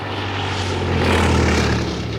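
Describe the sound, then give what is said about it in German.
A twin-engine propeller airplane flies past at middle height, making a loud, continuous droning roar over a low steady hum. The sound swells slightly midway, and no voices are heard. “Da entstand plötzlich ein Geräusch und eine Bewegung in der Luft. Alle erhoben ihre Augen und gewahrten in mittlerer Höhe ein dunkles Objekt, ein zweimotoriges Flugzeug, das zielstrebig auf den gemalten Himmel zusteuerte.”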